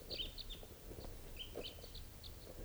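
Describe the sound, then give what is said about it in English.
A small flock of birds calls from the top of a tree: many faint, high chirps come in scattered bursts over a steady, quiet background hum. “And the birds are just sitting here on the top of a tree.”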